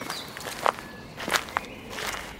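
Footsteps crunch along a woodland path, with a few sharp, distinct steps over a low, steady ambient background.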